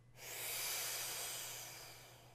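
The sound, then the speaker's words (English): A deep, fast inhalation through a dry-powder inhaler: one breathy hiss that swells quickly, holds, then slowly tapers off over about two seconds, fairly faint and with no talk. “take a nice deep fast breath, because this is going to be a powder.”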